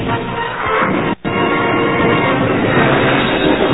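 A locomotive train passes with a steady, muffled rumbling roar that runs continuously for nearly four seconds, broken only by a brief dropout partway through, with no talk.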